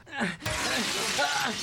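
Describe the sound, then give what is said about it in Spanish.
Car window glass kicked in and shattering, from a car stuck at a cliff edge with its door jammed. A loud, sudden burst of breaking glass is followed by sustained crackling debris, with a strained voice heard around it. “¡La puerta está atascada! ¡Quítate de allí y yo patearé el vidrio!”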